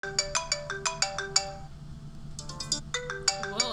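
Telephone ringtone of an incoming call: bright, melodic electronic notes repeat in quick rhythmic bursts, pause briefly, then resume with a similar pattern, clear and fairly loud with no talk over it.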